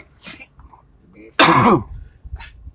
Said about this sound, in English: I'm coughing and she can't stop. Like she's choking.